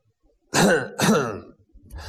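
Two loud, harsh coughs from an old cart driver, close together about half a second apart, each a rough burst that trails off, followed by a faint short breath.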